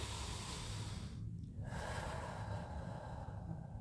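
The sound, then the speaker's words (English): A slow, deep breath drawn in and let out, a steady airy rush lasting several seconds, faint and alone with no talk. “let me take a breath.”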